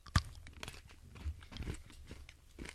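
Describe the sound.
Chocolate being bitten and chewed during a tasting: one sharp, crunchy bite near the start, then softer, irregular chewing and mouth noises with no talk.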